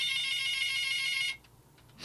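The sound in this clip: An electronic telephone ringtone signals an incoming call, sounding as a steady, pulsing high-pitched tone that continues for just over a second and then cuts off abruptly, leaving near silence.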